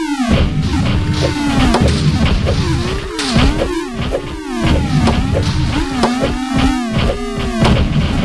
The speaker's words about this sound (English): indestructible paddle, but the catch is that you'll need to keep 3 balls moving with it. Try to destroy as many of the 420 blocks as possible in 3.5 minutes.